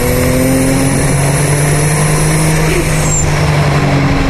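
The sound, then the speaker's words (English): A turbocharged car engine roars loudly and continuously as the car drives a course with turns, with a thin high-pitched turbo whine running above the dense engine noise. “Love that turbo sound. Yeah. It's better than generic rock music.”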